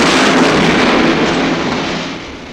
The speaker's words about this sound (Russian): Оглушительный взрыв расшвырял передний ряд атакующих.